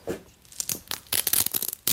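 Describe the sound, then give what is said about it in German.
Adhesive tape being peeled off the skin at the hip, heard as a few sharp ripping, crackling tearing bursts. A longer continuous tear runs near the middle, with no talk over it. “soll ich hier das Klebeband an der Hüfte mal abmachen?”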